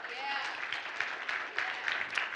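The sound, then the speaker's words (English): Soft applause from an audience: a steady, dense patter of clapping that continues throughout at a low level, with a voice faintly heard over it. “Yeah, she will accept those applause gladly.”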